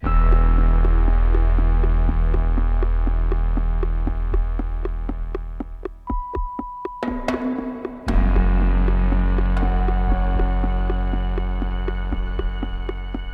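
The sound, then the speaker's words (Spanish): A heartbeat-like throb plays in an album track, a deep sustained pulse beneath many sharp regular ticks. The texture thins midway with a brief held tone, then returns at full strength. “Aquí se escucha mejor el latido”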